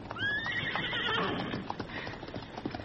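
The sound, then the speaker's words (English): Ponies led away from a spreading fire: a high, wavering whinny at the start over a steady, fairly quiet patter of clip-clopping hooves that goes on throughout. “We'll lead the ponies.”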